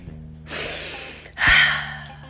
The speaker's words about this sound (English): Hold on, wait a minute, let me take a deep breath.